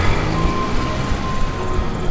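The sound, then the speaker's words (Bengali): A truck engine rumbles loudly and steadily at night, a dense continuous drone with no clear start or change in pace. “স্বপনদা স্টিয়ারিংয়ে হাত রাখলেন তার হাত এখনও ঠক ঠক করে কাঁপছে কোনো রকমের স্টার্ট দিলেন তিনি ট্রাকটি আবার চলতে শুরু করল”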